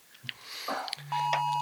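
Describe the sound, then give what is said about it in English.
A phone's emergency alert for a flash flood warning: after a few faint soft sounds, a loud, steady electronic tone starts abruptly and holds at an even pitch until the end. “Sorry, we're in a flash flood warning and my phone's plugged into the... I'm on a hill, so I'm good, but... Sorry about that.”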